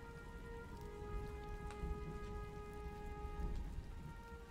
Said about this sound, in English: The rain, it's still coming down pretty strong, and against the glass, it kind of it shimmers.